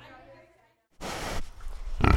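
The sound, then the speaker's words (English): Two pigs munching bits of sourdough bread near hay bales on a hill: a short harmonic grunt-like sound, then a pause, then two coarse, noisy bursts of snuffling and chewing. “Up on a little hill outside of Lander, two pigs munch on bits of sourdough bread near stacks of hay bales.”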